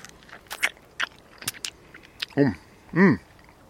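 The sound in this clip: Someone bites into a freshly picked sweet vegetable. A few small crisp crunches and clicks are followed by two short, hummed vocal murmurs of appreciation.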